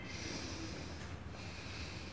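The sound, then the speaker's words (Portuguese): Soft, airy breathing in and out through one nostril during a breathing exercise gives a quiet, steady rush of air with a brief break near the middle. “inspira e expira por yin 7 vezes”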